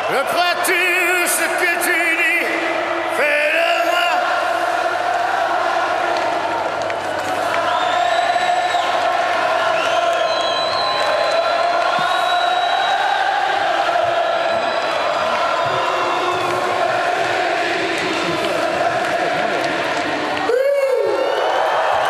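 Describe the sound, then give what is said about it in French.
A frenzied concert crowd cheering in a park: a sustained roar of many voices with shrill whoops and shouts rising over it, staying loud throughout and briefly dipping near the end. “Johnny n'est ni seul ni désespéré, mais porté par un public déchaîné. Un vent de folie souffle sur le parc.”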